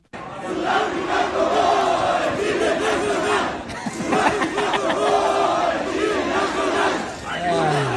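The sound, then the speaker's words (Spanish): A stadium crowd in Mexico City chants after a football match. Many voices join in a loud, sustained roar with repeated rhythmic phrases, dipping briefly and then surging again across eight seconds. “Esto se escuchó en el Estadio Ciudad de México, posterior al encuentro.”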